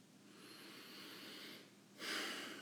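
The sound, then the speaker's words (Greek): A soft nasal inhale during a guided breathing exercise for self-forgiveness: a faint, steady airy breath that swells into a stronger rush of air near the end. “Συνεχίζω να αναπνέω, εισπνέω ότι πιο όμορφο από τη μύτη και εκπνέω οτιδήποτε χρειάζομαι το στόμα”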